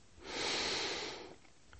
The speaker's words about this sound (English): I take a deep breath,